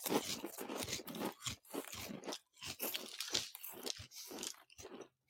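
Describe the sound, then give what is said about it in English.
Crisp crunching of jalapeno and lime chips being bitten and chewed, with many sharp, dry crunches in an irregular rapid rhythm and brief pauses between bites. No talk is heard. “chip, we're trying it. And I'm excited for this one. Yeah, jalapeno and lime. A little out there. I don't know if it's going to have a ton of flavor, but I just got to because it's got Anthony Davis on the cover. All right, let's try it.”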